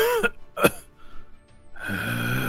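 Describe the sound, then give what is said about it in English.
A voice imitates the ragged breathing of a mangled, steaming figure after a wreck in a tabletop game, giving a couple of harsh, gasping breaths followed by a quiet stretch. “hear ragged breathing coming from him”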